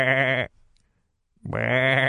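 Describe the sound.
Two loud, drawn-out goat bleats, each a harmonic, wavering cry lasting about half a second, separated by a short silence.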